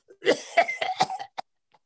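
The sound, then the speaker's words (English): A person coughing harshly in a short run of rough, throaty bursts that come in quick succession, followed by one last brief cough after a pause. “it's a nasty cough you've got there.”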